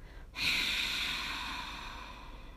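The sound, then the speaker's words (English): A single long exhaled breath during a breathing exercise, an airy hiss that starts abruptly after a brief pause and holds steady, slowly easing off over about two seconds. “Okay, are you ready? Let's practice. Exhale first.”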